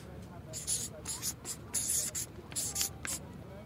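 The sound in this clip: A pen scratches out a name in a few short, dry strokes with brief pauses between them, the rasping sound sitting high and bright over a low background hiss.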